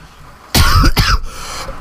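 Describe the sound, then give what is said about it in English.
A single loud, harsh cough in two quick bursts, rising sharply out of quiet and trailing off into near silence. “I can't cough and say that word very well.”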